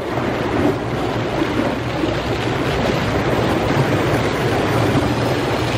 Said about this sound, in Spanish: Poco a poco, la escolta va pasando el río, pero con grandes dificultades. Las aguas embravecidas parecen detener a los soldados que llevan una misión criminal en contra de Matovelle.